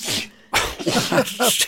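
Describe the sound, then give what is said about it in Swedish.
A sneeze aimed straight down onto a sandwich: a sharp, breathy burst at the very start, then a short pause and a run of loud, voiced vocal sounds. “nyser rakt ner på sin macka.”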